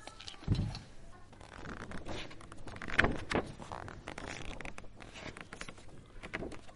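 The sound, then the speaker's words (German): An object being cut and sharpened gives faint, scratchy scraping and rasping strokes, irregular and quiet, with a couple of slightly louder scrapes among them. “Geschnitten. Es wird gespitzt.”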